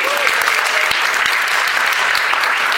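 Audience applause: dense, continuous clapping from many hands, even and loud throughout, with no voices rising above it.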